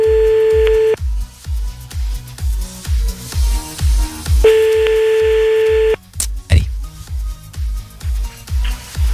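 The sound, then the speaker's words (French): A telephone ringback tone rings twice, each steady buzzing ring lasting about a second, as a late-night French radio call-in show phones a listener live. A steady thumping beat pulses throughout. “On l'appelle maintenant en direct sur Fun Radio, 23h31.”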